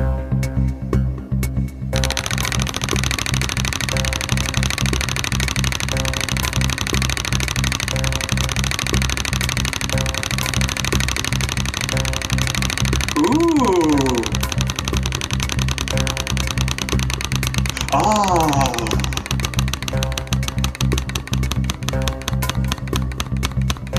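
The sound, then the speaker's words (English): Rapid, dense ratcheting clicks from a spinning prize wheel run steadily through the whole stretch over a continuous tonal background, with no voices. “You're going to spin the wheel and we're going to see what you land on this week”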